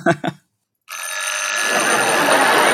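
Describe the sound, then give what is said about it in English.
An old 1979 telephone's electric bell rings continuously, a loud, harsh metallic clatter from a vibrating hammer beating the bell, sustained after a brief voice and a short pause. “It's a telephone. In 1979, that was a telephone.”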